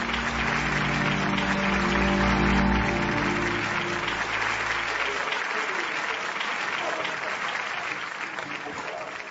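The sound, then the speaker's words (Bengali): Applause from a standing theatre audience as the stage curtain comes down: dense, loud, continuous clapping through the whole stretch, easing slightly toward the end. “উঠে দাঁড়িয়ে হাততালি দিতে লাগলো রণজয়।”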